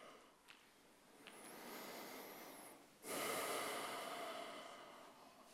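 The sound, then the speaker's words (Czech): Breathing in and out during a back-muscle exercise session: a softer, rushing inhale is followed by a louder, sustained breathy exhale, with no talking. “Inhale. Nádech. And exhale. A výdech.”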